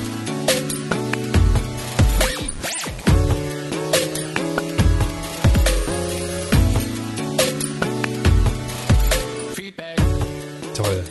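A short jingle is triggered at the press of a button: upbeat band music with punchy, regularly spaced drum hits and bright sustained chords. It plays loud and continuous with no voices.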